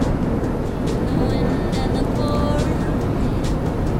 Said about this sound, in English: Later, Addie drives a country highway with Ruth in the passenger seat.